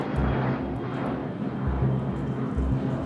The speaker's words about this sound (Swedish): Miloš sätter sig på ett flyg till Köpenhamn och åker raka vägen till hotellet